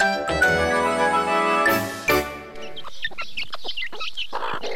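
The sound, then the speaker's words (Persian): Chickens cluck while being fed grain, producing many short, choppy clucks that come in the latter half after a sustained tonal stretch, loud and with no talk. “به این مرغا کم دانه انداختم”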